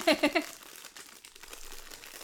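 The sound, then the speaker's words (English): Crinkling plastic wrapper on packaged cookies being unwrapped: three quick, crackly bursts at the start, then faint, scattered rustling that tapers off. “Oh, I have to, like, unwrap them again. Cookies, right? They're in multiple layers of things.”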